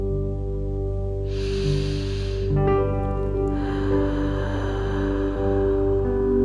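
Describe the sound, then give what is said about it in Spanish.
A deep, slow inhaled breath during a guided relaxation exercise rises as a soft, airy rush over steady background music, followed by a quieter, longer stretch of breathy air. “Cierra tus ojos, relájate y respira profundo.”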